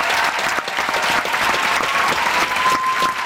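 Loud, steady applause and cheering greet the lead actors, teachers and pupils of a special school in Lienz, arriving on the red carpet for their film premiere. The clapping stays dense and unbroken throughout.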